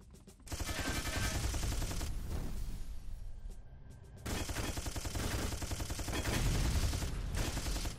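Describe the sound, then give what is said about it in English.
Loud gunfire in a shooting video game: dense, rapid automatic bursts that run almost continuously, dip briefly midway, then resume just as heavy. “I'm not going to really worry too much about my accuracy. I care more about just shooting everything.”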